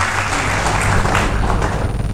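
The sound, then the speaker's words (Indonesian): Audience applause at a national dialogue event held in a regional government hall, with dense, steady clapping that fills the full two seconds at a fairly loud, even level. “Tepuk tangan yang paling meriah bagi sekalian.”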